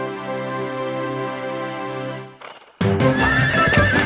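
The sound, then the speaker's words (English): A horse neighs in one long, loud, quavering whinny of about two seconds that fades out, followed by a broader, noisy burst of sound. “Whoa! Horsey! Whoa!”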